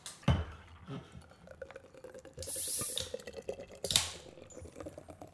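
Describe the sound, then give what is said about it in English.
Cans of Guinness Draught beer cracked open: sharp metallic snaps and a hissing, spraying rush of gas and foam, with a couple of clear pops set against quieter clicks and rustling. “Okay, Rog, let's crack open the Guinness. Oh, summer's over. We've both got the Guinness draft, Rog.”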